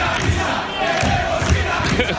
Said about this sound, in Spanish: Es un combate de lucha libre. Están dos señores pegándose hostias y el público dando dándole el propio ring hostias diciendo queremos ir a misa.